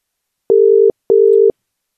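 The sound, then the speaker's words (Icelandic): A telephone tone sounds as a call is placed: two steady, mid-pitched beeps of about 0.4 seconds each, separated by a short gap. The tones are clean and alone, with no talk over them. “látum vaða á hann símtal”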